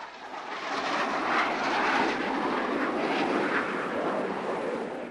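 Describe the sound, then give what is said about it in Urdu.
Two fighter planes flying in during an air attack, heard as a broad, steady jet roar that swells slightly in the middle and eases a little toward the end. No voices can be heard. “Sugar ہی دو لڑاکو ویمان آئے، حملہ بھی ہوا”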